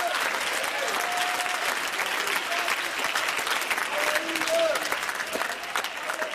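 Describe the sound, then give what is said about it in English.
A church audience claps hands during a service, a loud and steady stretch of dense clapping. Scattered voices call out above it now and then. “Oh, you ought to clap your hands and thank the Lord that we can remember.”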